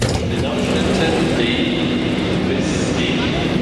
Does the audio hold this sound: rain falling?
no